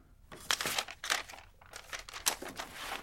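A paper letter being unfolded and handled, rustling and crinkling in many sharp crackling bursts in quick, uneven succession. Fairly faint, with no voices.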